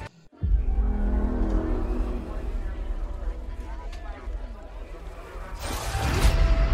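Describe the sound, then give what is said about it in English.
Trailer audio for the video game Star Wars Jedi: Fallen Order: a deep rumbling soundscape runs under a speaking voice and swells into a loud whoosh near the end. “this is a good time for me to play the audio of the trailer they had for Fallen Order”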